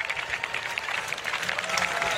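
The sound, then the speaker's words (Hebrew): An audience claps at an evening open-air concert at Ashdot overlooking the Sea of Galilee, awaiting the start, with many hands patting in a lively, even patter that swells slightly toward the end. “והקהל נערך בציפייה למה שהולך לבוא. הרבה מחיאות כפיים.”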